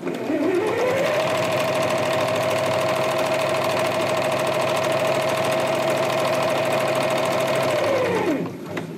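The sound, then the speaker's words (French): Sewing machines run in the sewing room of a Red Cross centre. Their steady, loud mechanical whir climbs in pitch as they start, holds an even hum for several seconds, then winds down and stops. “Il y a quand même une autre pièce où il y a encore du bruit, c'est celle des machines à coudre, la salle de couture.”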